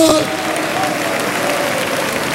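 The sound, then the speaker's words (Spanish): A church audience claps for God during a service: a dense, steady patter of many hands that lasts the whole clip, with a voice faintly heard over it. “¿Cuánto pueden darle palmas a Dios?”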